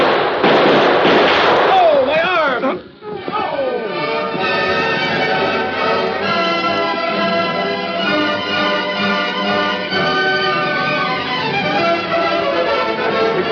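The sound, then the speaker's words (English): Gunshot sound effects in a Western gunfight scene, a loud, dense burst of rapid shots over the first few seconds, followed by a long, steady ringing tonal sound. “Get out your gun and start blasting.”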